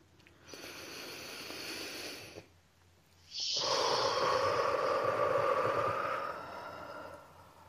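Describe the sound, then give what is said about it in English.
A deep breath: a soft, airy draw of about two seconds, a short pause, then a longer, louder and fuller breathy release that fades away. “See, that's the magic of just a good old deep breath.”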